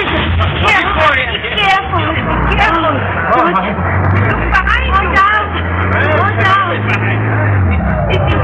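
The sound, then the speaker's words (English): Truck engine starting, then running as a low steady rumble beneath several voices talking. “No, he's getting the truck started.”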